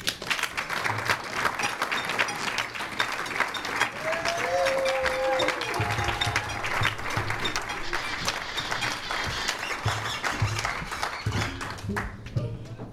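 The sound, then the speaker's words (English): An audience applauds to welcome the narrator on stage at a live Peter and the Wolf performance, with dense, steady clapping throughout that thins out at the very end. “So please, give us a big, rousing welcome.”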